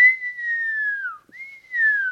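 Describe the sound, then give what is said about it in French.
A person whistles two long, sustained phrases, each a steady high tone that slowly glides lower, with a short break between them and no other sound. “Eh bien, le public a cru que je sifflais.”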